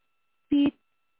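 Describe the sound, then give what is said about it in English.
A medical monitor gives a single short electronic beep as a patient's oxygen level drops, a brief steady mid-pitched tone heard alone against silence. “beep, beep. Beep, beep, beep, beep. His O2 status dropping.”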